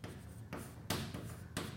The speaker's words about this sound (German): Ja, man schreibt jetzt das G Das schreibe ich jetzt hin als so ein Fourier-Integral über eine Funktion.